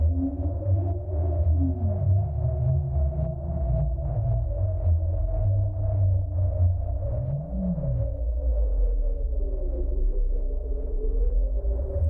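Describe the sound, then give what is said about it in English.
Ethereal electronic tones from eight deep ocean core climate records, sonified and played back on eight speakers surrounding listeners; layered sustained pitches slowly bend and glide with no distinct notes, holding a steady, fairly loud level throughout. “Visitors come in and they can interact with a large timeline, which they touch and go to any point in time. And what they hear are climate records played back on 8 speakers that surround them.”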